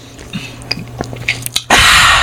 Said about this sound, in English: But I'm drinking Pepsi right now though.